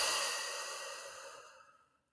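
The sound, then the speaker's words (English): One deep breath out during a relaxation tapping exercise: a long, airy exhale that starts strong and fades away over about two seconds, heard on its own. “All right, breathe it on in and out.”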